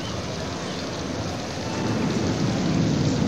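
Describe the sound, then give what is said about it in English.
Heavy rain and rolling thunder during a storm: a steady, dense hiss of rain with a low rumble that swells louder in the second half. “Cover all the equipment. Hey, if you think really hard, maybe we can stop this rain.”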